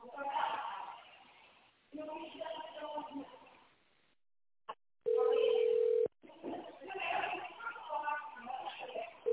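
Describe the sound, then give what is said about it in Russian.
Telephone keypad tone while dialing an extension in tone mode: one steady, mid-pitched tone holds for about a second after a tiny blip, set among stretches of voice-like sound. “Если вы знаете внутренний номер абонента, наберите его в тоновом режиме.”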